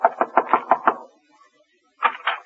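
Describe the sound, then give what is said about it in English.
Knuckles rap on a door in six quick, evenly spaced knocks, then, after a pause, two more. The hollow taps are crisp and moderately loud, with no talk. “So now, with his laundry under her arm, she's knocking at the door.”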